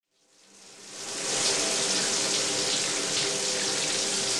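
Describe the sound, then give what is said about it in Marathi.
Water runs from a tap into a tank, building within the first second to a loud, steady gushing rush that holds unchanged to the end, with no voices. “अरे अर्धा तास झाला पाणी वाहतंय, टाकी बंद कर.”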